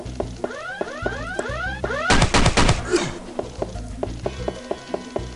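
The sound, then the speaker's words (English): A mini pistol fires rapidly in a video game: quick, repeating synthetic shots mixed with sweeping electronic tones, then a dense burst of gunfire followed by a run of sharp, evenly spaced clicks. “I have a mini pistol that's just as good and fires faster.”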